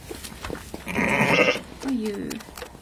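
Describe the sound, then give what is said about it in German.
A ewe bleats, anxiously calling for her lamb: two drawn-out, wavering cries, the first louder and longer, the second lower and shorter. “Da hörst du jetzt gerade, sie sucht ihr Junges. Nicht die? Das da. Ist der Ruf nach, der besorgte Ruf nach einem Lamm.”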